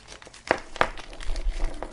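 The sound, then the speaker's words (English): A plastic bag of multimeter accessories is rummaged through, with lead extenders, alligator clips and probes inside: two sharp crinkles followed by softer, faint rustling. “Oh, let's go through this other bag of whatever goodies you get with the red one. You get lead extenders.”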